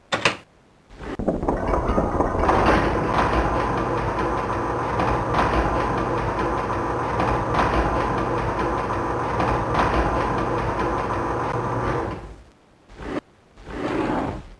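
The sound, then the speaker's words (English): Elevator ride in the video game Spelunx: a loud, steady mechanical rumble and rattling drone that runs unbroken for about eleven seconds, stops abruptly, and returns briefly for a short final burst. “The game opens with an elevator ride.”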